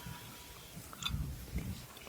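Faint chewing of crispy fried mushrooms tossed in butter with blueberries and garlic, a couple of soft, muffled bites over a quiet background.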